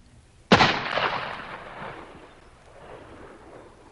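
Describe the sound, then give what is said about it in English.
A single sharp gunshot in an audio drama, fired from a clifftop above a valley near a forest: one loud crack followed by a long, rolling tail that slowly fades. “Carter Drews was calm as he pulled the trigger of his gun.”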